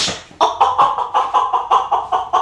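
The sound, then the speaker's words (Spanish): A hen escaped from a woman's house clucks in a rapid, steady series of short, nasal calls, loud and alone with no talk. “ya se le salió la gallina a la mujer, mire.”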